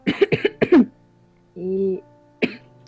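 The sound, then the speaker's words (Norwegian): Harsh coughing, a few bursts in a quick cluster followed by a pause and one more single cough. “ja, du hoster, du òg?”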